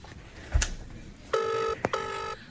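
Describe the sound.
A phone call rings over speakerphone while connecting: two steady, buzzy ringback tones separated by a short gap, heard over low background hiss and preceded by a single dull knock.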